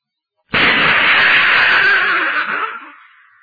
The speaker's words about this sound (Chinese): 炸弹在清军堆里炸开了花